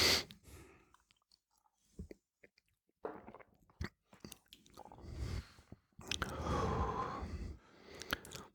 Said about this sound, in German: Und dann musst du halt ganz langsam ausatmen. Und dann bekommst du den Geschmack überhaupt ganz mit. Das brennt dann auch nicht im Hals, sondern ist dann sehr, sehr angenehm. Also ich nehme einen kleineren Schluck.